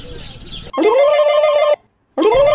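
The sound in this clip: A telephone rings in two long electronic warbling bursts separated by a short silence, loud and clear after some brief background noise at the start.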